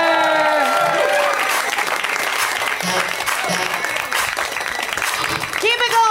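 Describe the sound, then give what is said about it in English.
Audience applause welcoming a comedian to the stage, loud, sustained clapping from a crowd with a voice talking over it. “please welcome to the stage the hilarious Emily Heller. Give it up for Emily.”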